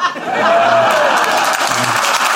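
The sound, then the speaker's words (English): A crowd gives polite audience applause, an even, steady patter of clapping that holds at a constant level for a couple of seconds without building or fading. “That's a pity applause. They're clapping for you. They just waited politely till I'd finished.”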